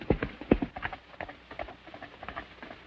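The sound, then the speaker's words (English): Hoofbeats of a mounted horse galloping away along a ravine: many quick, irregular, faint thuds in a loose, rapid rhythm. “Still mounted, Zanty turns and gallops away.”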